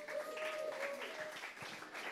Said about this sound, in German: Komm, Applaus für den Nate